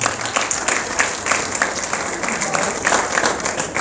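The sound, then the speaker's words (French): An audience applauds, a dense patter of many hands clapping steadily for a few seconds at moderate loudness, with no voices standing out. “Et je vous prie de l'acclamer une fois de plus.”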